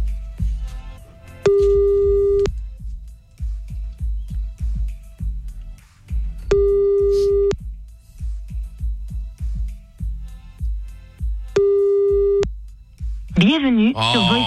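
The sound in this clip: Telephone ringback tone heard while calling someone back: three steady, mid-pitched beeps, each about a second long and about five seconds apart, over low rumbling background noise, ending in a brief warbling electronic sound.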